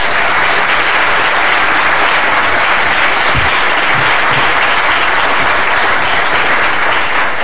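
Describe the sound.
Audience applause welcoming a speaker to a lecture on Libya at the LSE: dense, sustained clapping that stays loud and even for the whole stretch.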